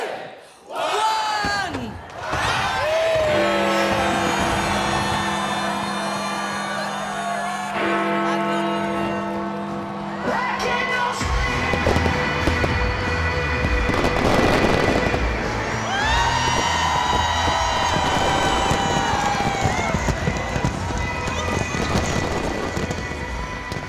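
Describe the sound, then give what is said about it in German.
Fireworks rockets whiz into the night sky at a midnight countdown, their whistles bending in pitch between crackling bursts. A loud, continuous crowd noise runs underneath throughout. “eine Explosion an Farben und Formen. 1000 Raketen zischen in den Nachthimmel”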